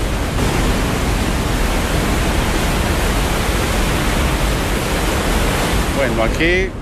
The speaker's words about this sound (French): Ce bruit, c'est celui de l'eau qui arrive dans un bassin. Nous sommes sous une plateforme qui donne sur le bassin, dans un tunnel.